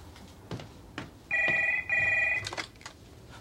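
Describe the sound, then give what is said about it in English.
A telephone bell rings in two bright, loud bursts in quick succession, with a few soft thumps around them. “goes to answer the phone.”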